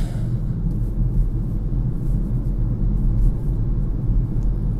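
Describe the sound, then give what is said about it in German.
Car driving along a road, a steady, even low rumble of engine and tyres that runs unbroken throughout with no talking. “Ich fahre gerade die Strecke, die ich immer früher jeden Tag gefahren bin”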